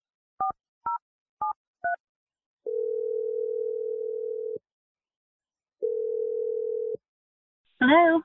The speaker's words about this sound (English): We're going to dial her number right now.